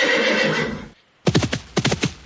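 A horse neighs loudly, a sustained breathy whinny followed by a brief silence and then a run of rapid, pulsing neigh bursts.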